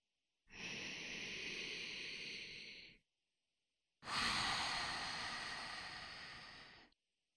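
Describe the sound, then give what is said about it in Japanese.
Deep breaths are drawn as two long, airy rushes of breath, each lasting a few seconds with a short silent gap between them, the second slightly louder and longer. “最高の深呼吸。”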